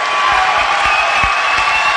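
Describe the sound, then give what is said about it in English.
A basketball crowd cheers and claps as fans rise to their feet late in a close game. The roar is loud and sustained, with clapping mixed into a dense wall of crowd noise. “Mike Reynolds on his feet, trying to get the crowd on its feet. The fans respond.”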